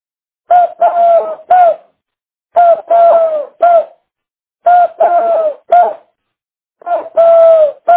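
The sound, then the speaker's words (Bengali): A human voice imitates a dove's call with soft, hooting coos. They come in repeated short groups of three or so phrases, separated by brief silences. “তো আমি আজকে প্রথম নিয়ে আসব ঘুঘু পাখি, দু ধরনের ঘুঘু পাখি, ঘুঘু পাখি ডাক এইরকম।”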